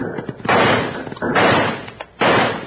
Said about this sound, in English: Unholster those six guns and let's turn their heads.